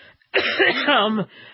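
Throat clearing and a cough from a dry throat: one rough, voiced burst lasting about a second, with a faint breathy tail after it.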